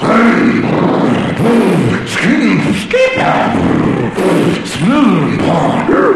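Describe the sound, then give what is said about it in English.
A man's voice imitates a go-kart engine warming up, making repeated revving vroom sounds that swoop up and down in pitch, loud and rhythmic. “We're all warming up. I'm warming up my go-kart.”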